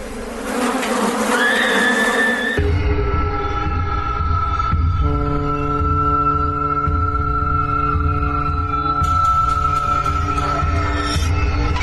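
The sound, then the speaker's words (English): A swarm of bugs buzzes in a dense, continuous drone, layered humming tones that shift a little early on and then hold steady and loud for the whole stretch, with no talking. “They're being eaten alive by them bugs.”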